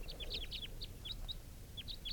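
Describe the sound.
Bird calls in the field near a mist-net perch: a series of quick, high, thin chirps in irregular bursts, faint over a low rumbling background.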